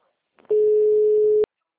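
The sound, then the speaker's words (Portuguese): A telephone call tone while dialing someone: one steady, mid-pitched beep lasting about a second, preceded by a few faint clicks, then quiet. “Eu tô ligando pra ela aqui agora.”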